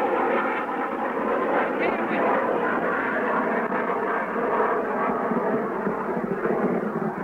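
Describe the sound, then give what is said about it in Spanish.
An enemy airplane flying over during an attack on an airport, a steady, broad engine roar that holds an even loudness throughout with no clear rise or fall. “Misiles nuestros se dirigen en busca del avión enemigo.”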